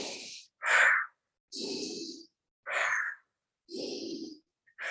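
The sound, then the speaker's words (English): Deliberate breathing in through the nose and out through the mouth during a calming breath exercise: a steady run of loud, airy breath strokes alternating between hissy and breathier tones, each separated by short silences, with no talk. “Even a 90 seconds of a breath, like in through the nose and out through the mouth”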